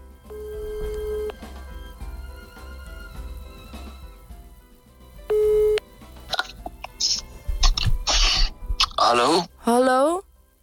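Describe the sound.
Ringback tone while phoning someone: a steady mid-pitched beep, a pause, then a second shorter beep over soft background music, before people start talking.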